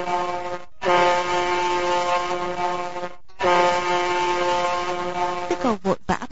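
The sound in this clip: A ship's horn blows long, low, sustained blasts with a rich steady tone: a short blast, then two long ones separated by brief breaks, followed by a few short, choppy sounds at the end.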